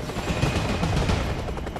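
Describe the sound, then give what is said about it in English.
A helicopter descends and bounces down onto a concrete lot among low industrial buildings, its loud rotor chopping in rapid, continuous pulses under a heavy, steady roar. “The helicopter slowly descends and then bounces down onto a concrete lot among low industrial buildings.”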